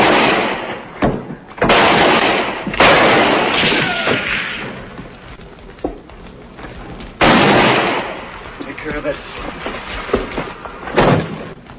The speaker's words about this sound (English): Just fire toward the wagon when I go.